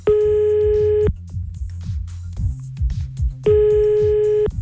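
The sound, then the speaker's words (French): A telephone busy signal sounds as two long, steady beeps of the same pitch. In the gap between them, low rhythmic notes play. “Ah ben voilà, c'est ça l'occupé.”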